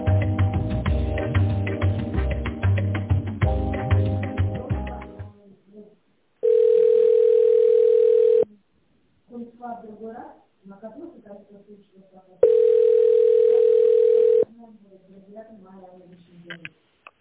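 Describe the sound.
A telephone ringback tone plays while a call to a medical equipment shop connects: two long, steady, low-pitched tones, each about two seconds, follow music and are separated by stretches of talk.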